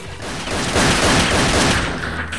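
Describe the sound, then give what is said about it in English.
Rapid repeated gunshots from a gunman firing at someone crashing through a glass panel wall, forming a loud, dense volley of overlapping shots with no clear gaps for a few seconds. “the 49er shoots at him repeatedly”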